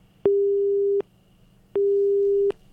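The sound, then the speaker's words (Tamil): A telephone busy tone after a caller's line was cut off, with two steady mid-pitched tone pulses, each about three-quarters of a second long, separated by a short silence. “நண்பர் நல்லா ஒரு கவிதை சொல்ல வந்தாரு, அதுக்குள்ள அவருடைய call cut ஆயிடுச்சு.”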